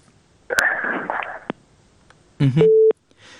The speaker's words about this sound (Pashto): د وردګ صاحب اړیکه شلیدلې